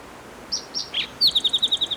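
Spotted towhee song recorded at Cherry Creek: three high, separate introductory notes, then a rapid trill of short repeated notes, clear against a quiet background.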